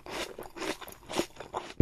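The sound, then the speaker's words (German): Crunchy chewing of a bitten apple, with several moist, crackling bursts in an uneven rhythm, fairly loud and close, and no voices. “Und was mache ich jetzt? Du musst ihn im Mund zerkauen.”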